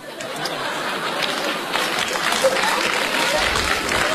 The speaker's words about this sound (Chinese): 就这您还鼓掌了？